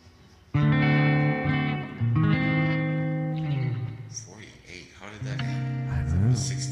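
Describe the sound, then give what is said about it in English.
Voices in a game's voice chat are drenched in heavy world reverb, smeared into long, echoing, slightly distorted tones that hang and overlap throughout. “Somebody has too much world reverb on.”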